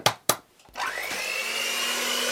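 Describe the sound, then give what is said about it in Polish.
An electric mixer whips egg whites with a pinch of salt at top speed. Two short clatters come first, then the motor starts with a rising whine and settles into a loud, steady high-pitched whir. “Błyskawicznie jajka nam się ubiły. Po najszybszych obrotach z odrobiną soli ubiliśmy białka.”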